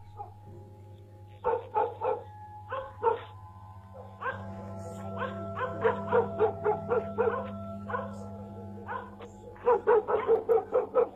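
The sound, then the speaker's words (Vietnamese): Village dogs bark and yelp at night in many irregular bursts, sharp barks mixed with higher whining yelps, over a steady low hum. “thỉnh thoảng đâu đó có mấy con chó ở trong làng nó cắn ma, cứ nhấm nha nhấm nhẳng vang lên”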